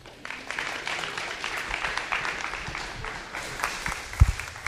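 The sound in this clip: Applause from a church audience welcoming a guest speaker, a dense, steady wash of many hands clapping at an even level throughout, with a brief low thump near the end.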